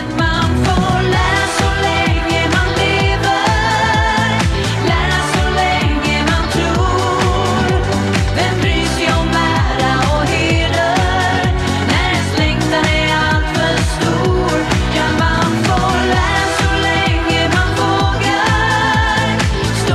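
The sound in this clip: Dense, loud pop music from a Swedish song contest plays steadily throughout, a full band with a driving beat and layered melody that stays at constant volume from start to finish.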